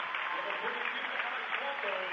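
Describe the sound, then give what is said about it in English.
Crowd applause at a basketball game as the Bishop Newman players come off the court, a steady, even wash of clapping with no sharp peaks. “And a full round of applause here for the Bishop Newman kids coming off the court.”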